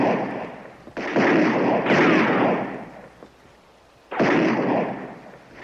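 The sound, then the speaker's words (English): Gunshots from recruits firing at man-shaped silhouette targets on a firing range: a few loud, sharp blasts, each trailing into a sustained roar, with a quieter gap before a final blast. “at the firing range. Recruits shoot at targets, bearing a silhouette of a man.”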